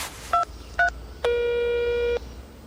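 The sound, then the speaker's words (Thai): Telephone keypad tones as a call is dialed: two short double-pitched beeps a moment apart, then one longer steady electronic tone of nearly a second, loud over a faint background hiss. “เดี๋ยวลองโทรถามดูนะคะ”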